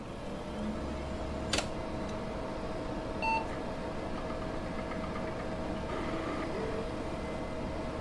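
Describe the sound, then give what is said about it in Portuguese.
An early-1990s PC boots up with a steady fan and drive hum. A sharp click is followed by a single short, high beep. “Ligar um PC no começo da década de 90 poderia ser uma experiência um pouco intimidadora. Durante o processo de inicialização,”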